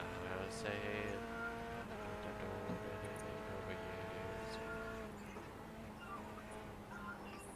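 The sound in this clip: A racing car engine in the video game Forza: a steady droning whine with stacked harmonic tones that holds for several seconds, then drops slightly in level near the end.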